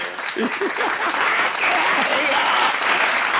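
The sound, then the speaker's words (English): Audience applause, a dense and steady clapping that swells slightly after the opening, with voices calling out over it. “Can I get a round of applause again?”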